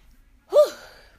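A single sharp, gasping breath from someone out of breath after running down the stairs quickly, one brief loud intake that swells and then trails off, heard alone with no talking.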